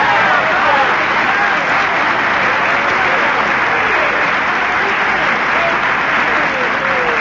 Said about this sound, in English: Clap for me.